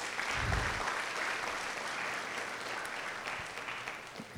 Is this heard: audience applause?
yes